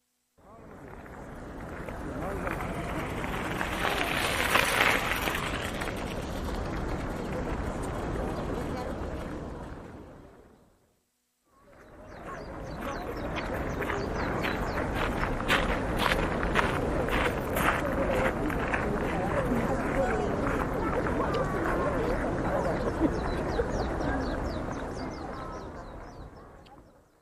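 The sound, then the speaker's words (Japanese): Visitors' footsteps crunch on gravel at a teahouse in Kyoto Imperial Park during the Aoi Matsuri festival. The crunching is steady and dense, from many feet, breaks briefly midway, and has voices murmuring beneath it. “京都御苑三寒舎の砂利音。”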